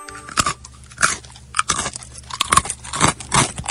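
Crunchy chewing as a mouse eats dried cream in a home: a quick, continuous run of many loud, crisp bites and crackles with no pauses.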